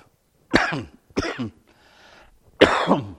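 A person coughing and clearing their throat: three sharp, loud coughs with a faint, rough throat-clearing rasp between the second and third, with short silences in between.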